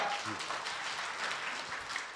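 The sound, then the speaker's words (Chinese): An audience applauding at a crosstalk comedy show: fairly faint, steady patter of many hands clapping together, sustained evenly across the whole moment. “什么呀还没唱 都鼓掌了就算了”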